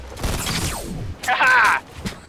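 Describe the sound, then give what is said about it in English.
Video game gunfire: a dense burst of rapid shots lasting about half a second, with a voice speaking just before it. “Is that you shooting at him? Yeah, I got him.”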